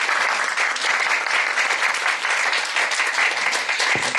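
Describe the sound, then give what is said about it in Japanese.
Audience applause at a church service welcoming back a newly married member, dense and steady clapping that holds at an even loudness throughout, with no talk over it. “拍手して”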